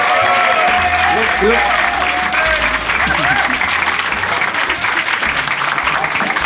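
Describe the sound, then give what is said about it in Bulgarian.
Applause from the audience at a panel discussion evening, dense and steady clapping that stays loud and continuous throughout. “Искам наистина силни аплаузи”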